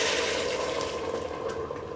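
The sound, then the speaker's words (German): Warm vegetable broth is poured into a hot pan to deglaze it while cooking a potato and pumpkin goulash. A loud, steady rushing hiss of liquid runs unbroken throughout, with no voices. “Dann hole ich meine erwärmte Gemüsebrühe und lösche das Ganze mal ab.”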